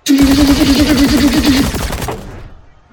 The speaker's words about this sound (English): And she raises this Gatling gun up, this Gatling laser rifle,